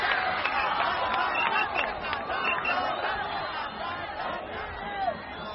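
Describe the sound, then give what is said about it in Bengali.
A crowd of spectators roars with cheers after a fierce bull is routed, a sustained wash of shouting voices and cries that stays dense and even throughout. “কালুর মতো ভয়ঙ্কর ষাঁড়ের এরকম লেজে গোবরে হওয়া দেখে দর্শক মন্ডলী তুমুল হর্ষধ্বনি দিয়ে উঠল।”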